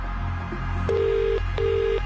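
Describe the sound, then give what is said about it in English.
An outgoing telephone call rings, giving two steady mid-pitched ring tones, each about half a second long, separated by a short gap, over faint low background hum. “We're making this call right now. And you need to answer within five rings.”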